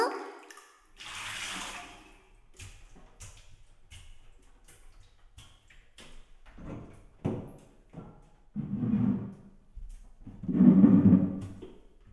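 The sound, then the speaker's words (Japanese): Water pours while someone's back is rinsed in a bath, in a few splashing bursts separated by quieter stretches of small knocks and drips. The later bursts are the loudest. “ほら、おいで。お背中流してあげる。”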